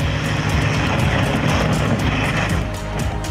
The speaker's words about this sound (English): Caught on video, a terrifying crash at an air show in France.